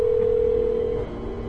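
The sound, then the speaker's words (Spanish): A telephone ringback tone on an unanswered call: one steady mid-pitched tone sounds for about a second and then stops, leaving a low background hiss. “A ver, mejor márcale. ¿No contesta? No.”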